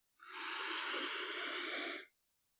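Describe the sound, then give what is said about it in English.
One long, deep breath during a guided relaxation exercise, a soft airy rush lasting about two seconds that rises in quickly, holds steady and cuts off cleanly into silence. “Now just rest your arms by your sides and take a few deep breaths with me.”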